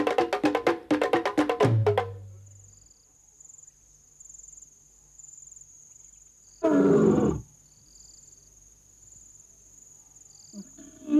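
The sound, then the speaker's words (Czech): A wild animal roars to mark its territory: a rapid series of loud grunting calls at the start, then one deep, heavy roar later on. Steady cricket chirring runs underneath throughout. “Řve a dává tak na vědomí, že tohle teritorium patří jemu.”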